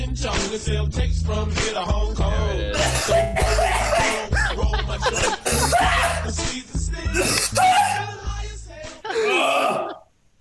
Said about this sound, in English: ASMR for coughing.